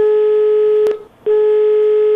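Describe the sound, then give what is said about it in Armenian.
Steady telephone line tone with harmonics, heard while an on-air call attempt is placed. The tone is loud and continuous, breaks off briefly after a short click near the middle, then resumes unchanged. No voices are heard. “Հիմա փորձենք հենց ուղիղ եթերում զանգահարել”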